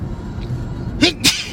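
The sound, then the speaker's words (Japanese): A person sneezes inside a moving car: two sharp, breathy bursts in quick succession near the end, over a steady low rumble of road and engine noise. “くしゃみです”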